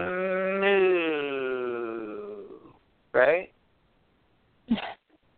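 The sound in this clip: A human voice imitates a cow mooing with one long, drawn-out harmonic tone that sags slightly in pitch before fading, followed by two short, sharp vocal bursts.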